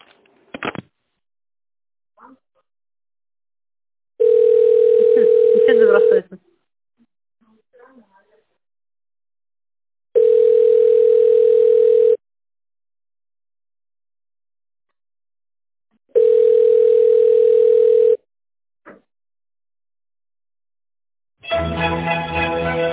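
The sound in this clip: Ringback tone heard while a call to a company waits for a secretary to answer: three evenly spaced, steady low tones of about two seconds each, with silent gaps between them and a voice starting at the end.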